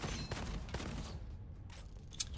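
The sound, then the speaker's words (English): Faint gunfire from a basic starting gun in a first-person roguelike video game, a dense run of rapid shots over a noisy backdrop, ending with a brief high ping. “You get a basic gun at the beginning, basic gun and basic grenades. And you have little, like, basic dudes at the beginning. And you pop in the head with your basic gun, right?”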